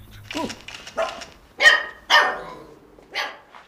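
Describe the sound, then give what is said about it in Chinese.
A household dog barking, several sharp loud barks in an uneven rhythm separated by short gaps, with no talk. “今天车不用洗了，把狗遛一下就行”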